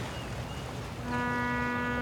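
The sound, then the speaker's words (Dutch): A boat's horn sounds as the vessel is about to depart, a steady low, tonal blast beginning midway and holding to the end over a rumbling background. “de boot gaat vertrekken. Het is tijd.”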